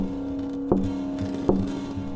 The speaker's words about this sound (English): Someone was knocking on my bedroom window.